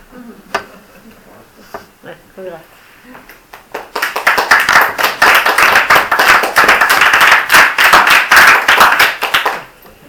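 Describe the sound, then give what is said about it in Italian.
An audience applauds at the close of a literary evening event. A few scattered, sharp claps come first, then dense, loud clapping swells in and holds steady to the end. “direi che questo applauso conciliante ci possa servire da segnale.”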